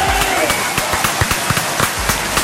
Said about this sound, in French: Bah oui, yes, standing ovation pour accueillir ce nouveau lundi